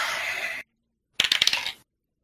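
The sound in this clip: Dice rolled during a tabletop role-playing game: a short noisy rattle, a pause, then a quick burst of several hard clicks as the dice tumble and settle.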